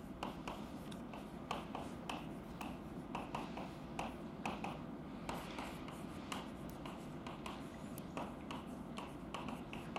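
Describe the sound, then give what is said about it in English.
Writing by hand while a cosmology lecture pauses: a steady, scratchy run of many short strokes and light taps, moderately faint, with no talking. “Let me write down how that's defined”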